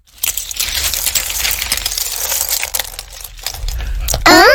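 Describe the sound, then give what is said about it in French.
Found feathers, pebbles and shells are emptied onto a surface, making a dense clattering and clinking spill that runs loudly for about four seconds. “Bull et Bob reviennent au château et vident leurs trouvailles.”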